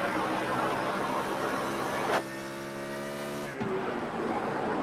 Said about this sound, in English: BMW that is uh, leading at the moment, the Kai Kashuba machine.